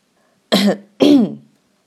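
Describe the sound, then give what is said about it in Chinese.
Two awkward coughs from a rubber bandage character in a children's story: two short, rough bursts about half a second apart, with silence around them. “橡胶绷带尴尬的咳了两声。”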